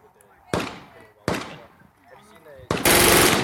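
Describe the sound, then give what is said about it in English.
A machine gun fires in three loud, rapid bursts, spaced apart with quieter gaps between them. The last burst is the longest and most sustained. “Ooh, got a machine gun.”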